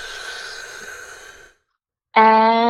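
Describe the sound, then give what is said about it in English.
A long, deep breath drawn in with a steady airy rush that fades out, then silence, then a sudden clear tonal voiced sound at the end. “Deep cathedral-sized breath in.”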